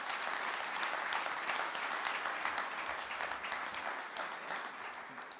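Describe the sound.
Audience applause welcoming a guest onstage at an evening church gathering: dense, steady clapping from many hands that holds at an even level throughout, with no voices rising above it.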